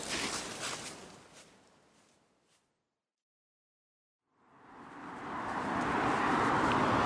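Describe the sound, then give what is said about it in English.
Road traffic with cars passing: one vehicle's broad whoosh fades away, then a couple of seconds of near silence, and then another car approaches and swells steadily louder. The whole passage is fairly quiet. “Pardon the traffic. I'll try not to talk over it too much. I'll try to let the cars go by. But there's a fair amount of traffic and I am trapped.”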